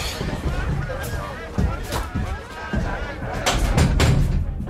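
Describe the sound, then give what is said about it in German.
A window being shut, heard as a few dull thuds and knocks beneath steady background chatter and murmuring voices. “wir schließen das Fenster besser”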